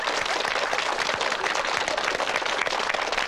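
Applause in a comedic drama scene: loud, dense, even clapping from many hands that keeps up without a pause.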